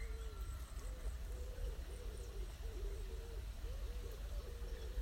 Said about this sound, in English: And it's time for that bird song to come to the fore. And if you can tune in to those sounds,